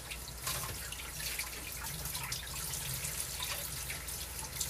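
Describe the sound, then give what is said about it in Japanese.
Steady running water at a kitchen sink while a cutting board is scrubbed with detergent. The rush of water stays even, with faint splashes and no distinct strokes standing out. “ちゃんと洗剤でゴシゴシしました”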